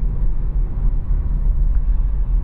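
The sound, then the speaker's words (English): Low, steady rumble from a car, vibrating through the microphone as a constant deep drone with no voices. “You can hear my voice vibrate because of my car.”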